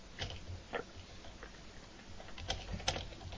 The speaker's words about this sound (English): I see you're bringing typing loudly back into style.